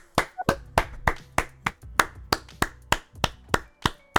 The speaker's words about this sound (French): Allez tout le monde! Bravo! ce n'est pas un jingle, ce sont mes vraies mains.